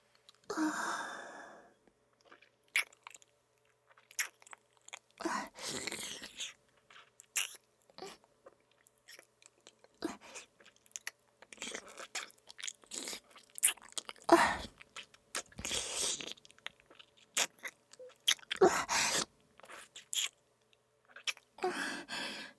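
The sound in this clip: Someone eating salty food, with soft, irregular biting and chewing sounds and crunchy mouth noises scattered across the whole stretch. The sounds come in faint bursts separated by quiet gaps.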